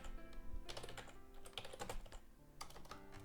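Quiet keyboard typing as a git config command is entered on a computer keyboard: many rapid, irregular keystroke clicks with brief pauses, faint throughout.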